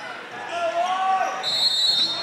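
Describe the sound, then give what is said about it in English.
A basketball being dribbled by a Peck Pirates player during a game against the Kingston Cardinals: bouncing under a constant crowd murmur, with thin high tones over it. “A dribble here for Peck Pirates.”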